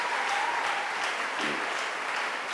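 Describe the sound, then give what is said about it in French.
Church conference attendees clap together, a faint, even patter of many hands that carries on steadily without a break. “Non, acclame. Let's clap.”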